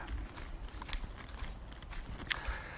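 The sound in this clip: Footsteps of a person walking outdoors on the way home, soft and irregular and faint, with low background rumble.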